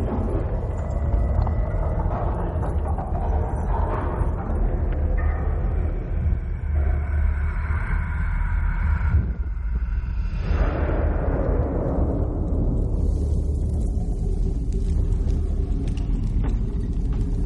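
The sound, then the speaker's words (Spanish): In a historical drama film, a bomb explodes near church steps, where a group of girls is walking down. A heavy, continuous low rumble dips briefly, then a broad roaring blast swells and slowly fades, its high, noisy hiss thinning out. “Una bomba explota alcanzando a un grupito de niñas que bajaban las escaleras de una iglesia.”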